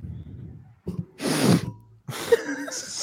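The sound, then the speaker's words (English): A person sniffs close to a microphone, producing one short, harsh nasal burst of air, with other noises after it. “Did you just sniff your mic?”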